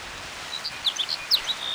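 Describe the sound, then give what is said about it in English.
A sparrow sings a few short, high, faint chirps in quick succession over a soft steady hiss. “It's hay sparrow number 6.”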